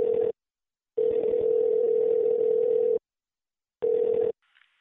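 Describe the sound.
Telephone ringing tone on an outgoing call: a steady, single-pitched tone in separate pulses, one brief, then a long one of about two seconds, then another brief one, with silence between and no talk.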